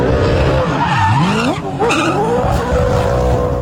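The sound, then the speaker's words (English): A Supercars race car does celebratory skids after winning a race in Townsville. A loud, continuous engine roar blends with screeching tires, and the engine note dips in pitch and then climbs again partway through. “That's the sound of Supercars driver Brody Kostecki celebrating after taking out this year's Townsville NTI 500.”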